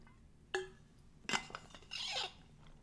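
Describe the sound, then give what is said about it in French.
Someone takes a small glass of water: a sharp glass clink, a short clatter of handling, then a brief breathy sip. All of it is faint and there is no talking. “Je vais prendre deux secondes pour respirer, prendre un petit verre d'eau”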